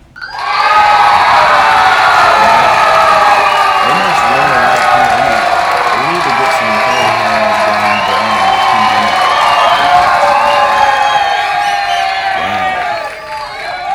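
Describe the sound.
Loud cheering from an audience at a show, with sustained screaming, whooping and shouting voices that stay at full volume throughout and ease off slightly near the end.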